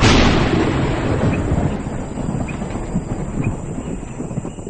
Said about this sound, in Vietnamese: Một chuỗi những tiếng sấm ầm ầm dồn dập vọng đến, rồi một tiếng nổ ầm vang trời.